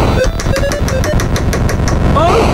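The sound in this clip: Video game sounds from an old Atari console during a two-player game: a loud, steady buzzing drone driven by rapid regular pulses, with short beeping tones popping in and out and a brief chirp near the end.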